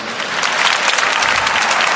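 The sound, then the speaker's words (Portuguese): Congregation applause during a church sermon: loud, dense clapping that swells a little and then holds steady. “Aplauda isso, vai.”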